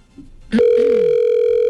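A steady telephone line tone on a call going through to an answering service. It begins abruptly after a brief lower blip and holds one even pitch to the end, loud and alone.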